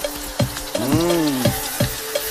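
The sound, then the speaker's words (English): Stir-frying of beef marinated with garlic and ginger: a steady sizzle under a regular run of sharp scraping strikes, with a squealing, gliding tone rising and falling between them. “This is really nice. Stir fry.”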